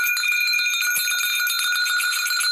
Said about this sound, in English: Well, before I go there, I am going to ring the bells